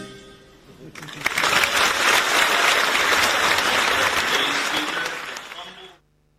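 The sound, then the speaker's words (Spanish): An audience bursts into spontaneous applause: dense, continuous clapping starts abruptly, holds strong for about five seconds, then tapers off and stops. “Los aplausos espontáneos del público”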